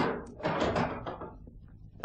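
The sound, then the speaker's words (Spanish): A door opens as a radio-drama sound effect in a scene from H. G. Wells' The Invisible Man, a short run of dull clunks and rustling thumps lasting about two seconds, moderately loud and heard alone. “Eady entró en la casa, abriéndole la puerta lo imprescindible para que el coronel pudiera pasar.”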